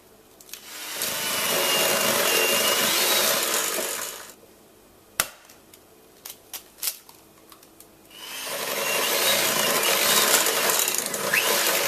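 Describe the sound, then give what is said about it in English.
An electric mixer beating eggs one at a time into cake batter. Its steady whirring drone runs for a few seconds, stops among a few light clinks and taps, then starts up again. “put 1 egg in, then mix it in with the beater, or the mixer, and then add another in until it's all done”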